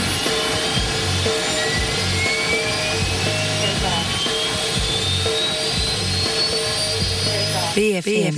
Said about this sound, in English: The card should be read carefully before takeoff. Takeoff.